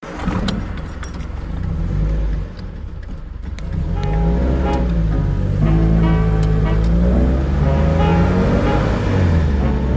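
A car engine starts and runs with a steady, low, continuous hum, after a brief jangle of keys, as a driver gets ready to pull away.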